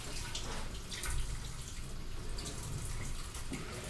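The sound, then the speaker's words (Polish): Water drains through a colander during cooking, a continuous faint rushing and splashing that holds steady for the whole few seconds, with no voices. “gdzie mamy durszlak? O, jest. Odcedzam.”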